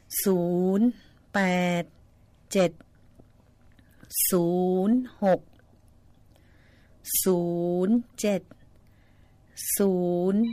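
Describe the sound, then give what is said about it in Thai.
A telephone rings for an incoming call in recurring tonal bursts, each a short, bright, harmonic jingle, with silent gaps between the repeats. “เดี๋ยวขออนุญาตรับสายนะคะ”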